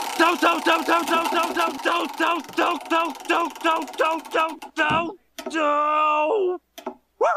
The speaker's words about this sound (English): Let's grab the episode wheel. All righty, and let's give that a spin.